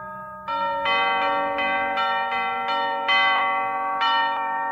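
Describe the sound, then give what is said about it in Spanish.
Christmas church bells pealing in a chapel: repeated bright, ringing strikes that overlap and sustain into a continuous shimmering tone, with new strikes entering every half-second or so. “En la capilla hay repique de campanas navideñas”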